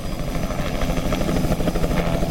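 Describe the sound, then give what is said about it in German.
Helicopters fly over a flooded area along the Zambezi in Mozambique, carrying relief supplies. The rotor chop pulses fast and regularly over a low engine drone, steady and unbroken throughout with no voices. “Ausländische Helikopter versorgen die notleidende Bevölkerung entlang des Sambesi mit dem Nötigsten.”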